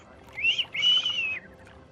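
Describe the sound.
Someone whistles a sharp, high-pitched attention signal in two notes, a brief one followed by a longer held tone, fairly faint over a quiet background.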